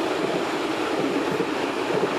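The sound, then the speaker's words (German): An S-Bahn commuter train passes with a steady, loud, broad rushing rumble that holds evenly from start to finish, with no voices over it. “irgendwie war mir klar, wenn ich hier stehen bleibe, kommt eine S-Bahn.”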